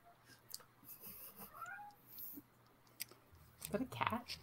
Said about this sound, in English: Yeah, that was my cat. I can hear him.